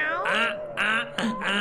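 Cat meowing: several drawn-out, tonal calls in quick succession, fairly loud and with no other sound around them.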